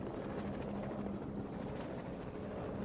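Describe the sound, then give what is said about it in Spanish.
A steady, dense engine drone from a white C-130 coast guard rescue plane holds at an even loudness for the whole stretch, with no voices over it. “Es un C-130 blanco. Es el avión de rescate del guardacostas.”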